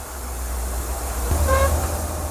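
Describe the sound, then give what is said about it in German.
A train's steady, loud low rumble as it runs at moderate speed through the landscape around the Arctic Circle, continuous throughout with no voices. “Die Bahn fährt in gemäßigtem Tempo weiter durch die spektakuläre Landschaft rund um den Polarkreis.”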